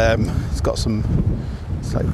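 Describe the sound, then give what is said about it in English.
Wind buffets a microphone in low, gusty rumbles that continue under a person talking. “And God, it's going to stop being windy. Is it too windy?”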